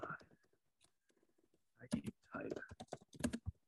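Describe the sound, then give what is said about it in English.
Rapid typing on a computer keyboard: many crisp, uneven clicks and key taps, dense in two bursts with a quieter, sparser stretch between them. “I can't type.”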